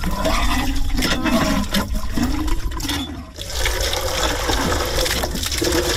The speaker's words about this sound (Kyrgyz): Азырынча жылуу мезгилде бул суу соргуч жакшы эле иштейт.